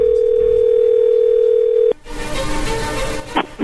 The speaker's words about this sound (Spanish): vamos a llamarle entonces a Janet en este momento